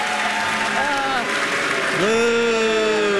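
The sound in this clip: Canned applause on a quiz show, a steady wash of recorded clapping running under a person talking and swelling slightly toward the end.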